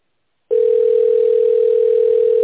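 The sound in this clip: A telephone ringback tone plays while a call waits to connect. After a moment of silence, one steady, even-pitched tone sounds loudly and without a break for about two seconds.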